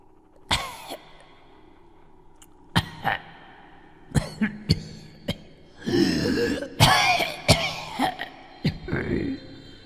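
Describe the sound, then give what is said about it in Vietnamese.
Repeated dry coughing fits from one person in a quiet night, harsh rasping bursts in clusters: a few spaced single coughs at first, then a denser, throatier run toward the end, with no speech. “Bóng người trắng bệch dưới ánh trăng bàng bạc quỷ mị tiếp tục cúi gập người, phát ra từng tràng ho đến thống khổ đáng sợ. Tiếng ho khan trong đêm tịch mịch”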